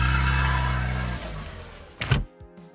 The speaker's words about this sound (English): I think they're leaving. They are. They're driving away?